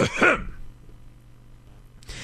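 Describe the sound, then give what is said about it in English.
A throat clearing, loud and brief, comes at the very start, then near silence with a low hum runs until a short noise near the end. “Thus, it requires an additional clearing of the throat.”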